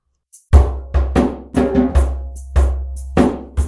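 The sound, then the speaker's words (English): A shaker gives a short high rattle, then a hand drum plays a rhythmic pattern of deep, resonant strokes, with brief crisp shaker accents between some of the beats. “What you're going to hear is that shaker and then the drum.”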